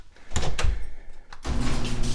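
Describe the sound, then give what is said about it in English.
A garage door is opened: a few heavy clunks and scrapes lead into a steady, humming rumble that carries on to the end, loud and with no voices. “Open the garage door.”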